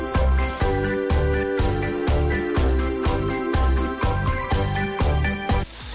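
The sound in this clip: Upbeat pop song with a bouncy, steady beat of strong pulses, about two per second, and bright jingling tones on top, loud and continuous with no talk.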